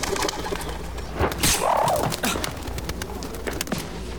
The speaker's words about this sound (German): Ganz ruhig. Brave Taube. So ist gut. Komm jetzt. Komm. Komm, auf geht's. Flieg los.